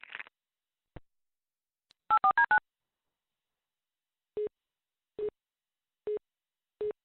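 Telephone dialing tones: a quick run of short dual-pitch keypad beeps, followed by four evenly spaced, identical single-pitch line tones over an otherwise silent line.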